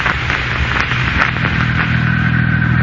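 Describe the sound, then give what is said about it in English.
Low, steady rumble of a car engine as the car crawls along at a snail's pace on a foggy night. The drone holds constant, with slight wavering and no change in speed. “I didn't dare drive beyond the pace of a somewhat depressed and anemic snail, and as we crawled along, I prayed that the white line would lead us somewhere familiar.”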